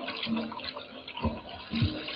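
Water pouring to fill large stone jars used for ceremonial washing, each holding 75 to 113 litres: a steady gushing, splashing stream with a few louder surges.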